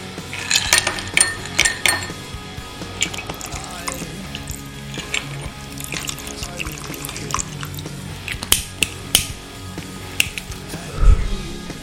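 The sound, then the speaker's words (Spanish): A glass of Jack Daniel's whiskey clinks and rattles in many sharp, scattered taps, some louder than others, with small knocks and a faint watery trickle in between. “Esto que suena es una copa de Jack Daniel's, porque cuando se habla de Lemmy se hace con el respeto adecuado.”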